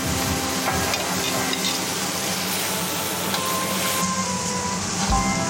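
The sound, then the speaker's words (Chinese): Sizzling of potato slices being stir-fried with fried pork liver, a dense, loud, steady hiss of frying that continues throughout. “等猪肝炸的香味散发出来，加入土豆片翻炒。”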